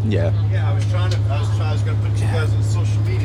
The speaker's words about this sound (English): We're in the bus right now heading home.